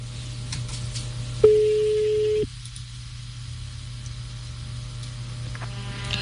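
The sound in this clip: One steady mid-pitched ringing tone lasts about a second on a telephone line while a call is placed to a listener. Quiet line hiss follows.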